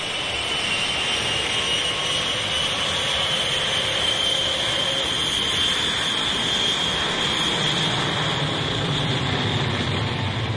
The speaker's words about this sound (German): Mit der vollbesetzten Boeing 707, die da soeben auf dem Frankfurter Flughafen von der Piste abgehoben hat, fliegen 134 Passagiere ohne Zwischenlandung nach New York.